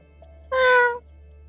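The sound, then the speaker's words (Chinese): A cat meows once: a single clear, mid-pitched, tonal meow lasting about half a second, standing alone over a low background hum. “吴一周悠悠走到仿生人身边，喵了一声，又嗅了嗅鼻子。”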